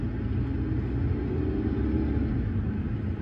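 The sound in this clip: Steady low rumble of car interior noise while driving, a dense droning roar that holds at an even level throughout with no talk.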